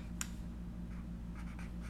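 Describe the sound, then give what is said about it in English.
A pen scratches faintly as something is written down by hand. There are a few short, quiet strokes over a low, steady background hum. “Let me write that down before I forget, because WHM10.”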